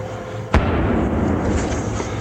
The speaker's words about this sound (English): That was RPGs. Militiamen firing on U.S. positions here on the outskirts of Najaf.